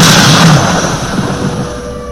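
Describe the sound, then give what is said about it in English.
A vest explodes with electricity in a magic blast: a loud, roaring burst that hits at full strength and slowly fades into a rumbling hiss. “The vest exploded with electricity, turning pretty much everyone on top of me into a crisp. It was so powerful, it burned itself off.”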